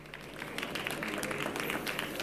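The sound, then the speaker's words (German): Brief audience applause for a speaker at a talk on internet copyright reform, dense, steady clapping from a crowd for about two seconds. “Ein kleiner Applaus bitte für unseren Sprecher.”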